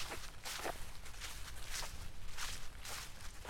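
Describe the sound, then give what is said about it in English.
Footsteps crunching over autumn leaves on a tree-lined park path, a faint, steady walking rhythm of soft rustling steps. “So we're just walking through, well, perhaps you can describe it, what we're walking through. So we've got walked into a bit more of a pathway now. Trees on either side. It's a lovely autumn day, so we've got the leaves underfoot.”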